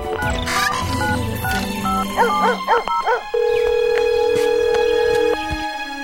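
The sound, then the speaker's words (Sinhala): A mobile phone rings with an incoming call. The ringtone is a bright, melodic run of electronic tones that ends in one long, steady held note, loud and alone, with no talking. “ඔය වෙලාවෙදි තමයි භාග්‍යගේ phone එක රිංගුනේ.”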